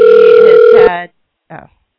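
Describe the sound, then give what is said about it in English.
A telephone rings with a loud, steady electronic tone that lasts about a second. A short, fainter burst follows after a brief silence. “I'm sure you can hear the phone ring.”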